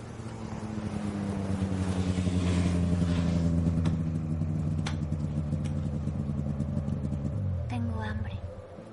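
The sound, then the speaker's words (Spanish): A snowmobile engine drones as the machine arrives, a steady buzzing motor that swells in loudness, holds, then shifts in pitch and eases off near the end, with light clatter over it. “Se adelanta para ver llegar a Patrick en la moto de nieve.”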